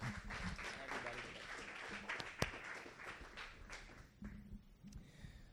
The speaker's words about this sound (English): Could you guys uh, just give it up again for Casey, my brother?